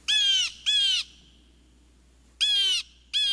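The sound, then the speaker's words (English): Steller's jay giving four harsh, raspy calls in two pairs, each a loud, scratchy burst of about half a second, with a pause between the pairs. “This is the Steller's jay.”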